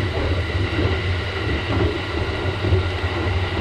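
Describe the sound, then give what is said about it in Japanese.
A sleeper train arriving at Fukushima station: a steady, dense rumble of rolling wheels and carriage noise with a faint hiss above, continuous and unbroken throughout. “今すぐに福島に到着。”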